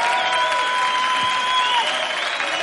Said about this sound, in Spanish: Sol saluda emocionada desde el escenario, mientras el público aplaude efusivamente.